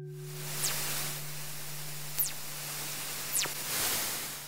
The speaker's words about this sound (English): This is the sound of a fast radio burst, a signal from space that scientists can't explain.